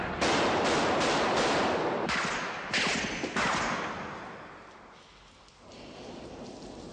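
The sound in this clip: Gunfire: several sharp, booming shots over a dense rushing noise, loud at first and then quieter toward the end, with no talk.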